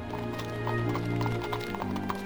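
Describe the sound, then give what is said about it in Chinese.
Hooves clip-clop steadily as a horse-drawn carriage pulls away, in a quick, even rhythm of many light knocks over a sustained tonal backdrop. “等马车远离之后，比尔才拖着奥利弗穿过酒店，走出小镇。”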